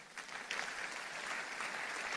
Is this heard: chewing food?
no